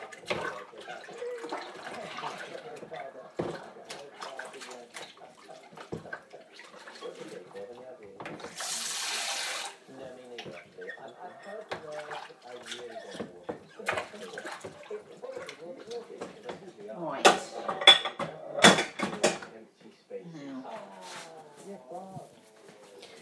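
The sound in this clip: Running water from a tap splashes into a kitchen sink while dishes are washed up, including a large dish holding salad. A few louder bursts of water stand out among soft clatter, and voices talk throughout.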